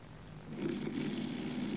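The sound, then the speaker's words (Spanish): A sleeping man snores in a hospital ward at night. After a quieter start it swells into a low, rasping drone and holds steady. “Cheswick duerme, una mano le tapona la nariz. Es Mac que le interrumpe el ronquido.”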